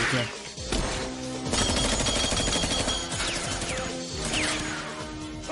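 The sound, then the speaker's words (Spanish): Gunfire in the jungle scene of the film Die Another Day, shots fired from above and at James: loud, dense bursts of shooting and crashing impacts that run almost continuously, with a brief dip before swelling again. “James y Miranda caen a la selva. Tao dispara desde arriba y Miranda dispara hacia James”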